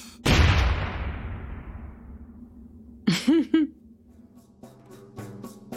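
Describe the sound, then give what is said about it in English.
An explosion sound effect in a tabletop role-playing game: one loud, sudden burst with a long rumbling tail that fades away, followed by brief vocal sounds. “If you hear an explosion in the background, let's just keep walking.”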